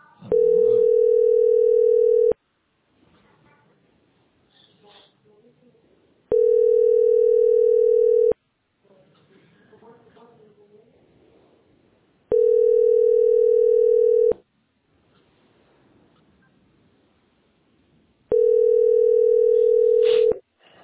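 A telephone line tone sounds while a call is being placed: four long, steady, mid-pitched beeps, each about two seconds long, with roughly four-second gaps of faint background noise between them.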